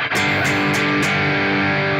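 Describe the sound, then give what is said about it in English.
A distortion pedal with its diodes knob turned all the way up gives a fuzz-like, squeaky, wet tone to a sustained, buzzing, distorted electric guitar with a few quick picked attacks early on. “the diodes knob makes it sound like a fuzz pedal, but it doesn't change the amount of distortion. So, like, as I pull that thing all the way down and then turn it all the way up”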